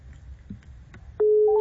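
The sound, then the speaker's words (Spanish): A phone busy tone sounds after a dropped call: faint scattered noise, then a loud steady tone cuts in abruptly near the end and holds to the close. “No, nos bota la llamada. Pasa algo raro.”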